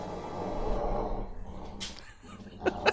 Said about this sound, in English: Sorry, for the record, I've got two dogs fighting over a plain towel. It's getting heated.